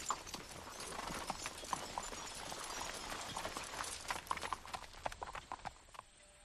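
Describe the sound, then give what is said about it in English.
Pony hooves clip-clopping on a road in a Civil War-era scene: many quick, irregular hoof strikes at a moderate, even level, thinning out and growing fainter near the end. “Can I have a ride on your pony?”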